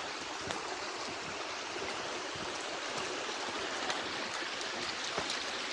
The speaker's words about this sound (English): Here's the stream we crossed earlier.